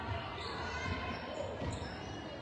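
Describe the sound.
Basketball dribbled during a women's game, a few dull low thuds under steady crowd noise and a commentator talking.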